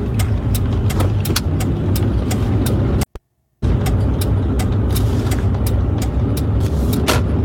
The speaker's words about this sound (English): As you can hear, the large vehicles around him.